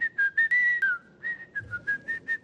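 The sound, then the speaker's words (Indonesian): Casual whistling by someone performing Islamic ablutions, a quick string of short, bright notes at a fairly steady pitch with a brief downward glide and a short pause midway. “Wuduk sambil siul-siul.”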